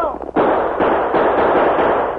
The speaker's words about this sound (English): drew both guns, and opened fire